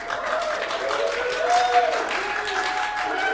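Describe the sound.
A conference crowd of UX designers cheers and claps in a vote for chimpanzees, a steady wash of applause with whoops and mixed voices.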